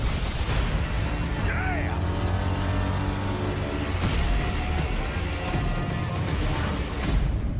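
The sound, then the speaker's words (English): Audio from the Justice League movie trailer: a car engine roars and revs loudly and steadily throughout, with a voice speaking over it. “This is Justice League, by the way. That was the trailer you just heard for Justice League.”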